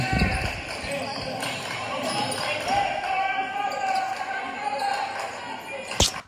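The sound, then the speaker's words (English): Scattered basketball bounces during a high school varsity basketball game: sharp thumps over a steady wash of crowd noise, with one louder impact near the end. “I've been looking at clips and watching film myself play basketball throughout the year.”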